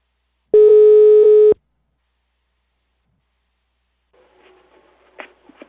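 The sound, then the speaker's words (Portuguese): A telephone call being placed gives one loud, steady buzzing tone about a second long, followed by silence and faint rustling. “Vou ligar pra Gisalva.”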